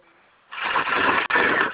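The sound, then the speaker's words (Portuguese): A sewing machine starts up and runs in a steady, loud whirring drone, with one very brief break near the end and no talking. “Voltei já para minha máquina de costura aqui.”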